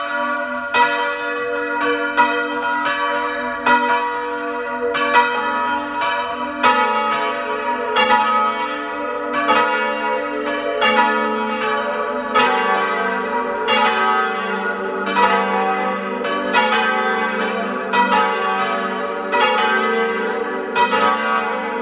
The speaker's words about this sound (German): Es ist 12 Uhr. Sie hören die Glocken der Pfarrkirche zum heiligen Johannes dem Täufer aus Hafling in Südtirol.